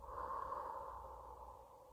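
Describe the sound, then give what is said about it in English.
A single deep breath taken during a guided relaxation exercise, a soft, airy, sustained rush of breath lasting about two seconds, faint and alone with no talking. “I want you to close your eyes and you're going to take a deep breath. Breathe in, breathe out.”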